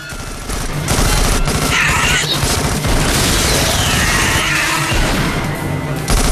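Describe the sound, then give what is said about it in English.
Shotgun shells blast into a wall inside a club in a loud, dense barrage of rapid gunfire with crashing impacts layered on top. “Inside, another Reaper races across the club as Reinhardt's shotgun shells blast into the wall.”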